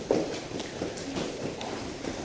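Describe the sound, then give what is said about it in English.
Footsteps of someone walking, several light, evenly spaced treads in a steady pace, fairly quiet against a soft continuous background hiss. “So let me show you what my walk is like.”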